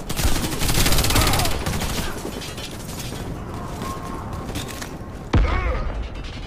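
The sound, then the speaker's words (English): Gunfire and a thrown grenade in the video game Warface: a dense, loud burst of rapid firing with mechanical clatter, a quieter stretch, then one sharp, loud blast near the end. “Grenade. Fire in the hole.”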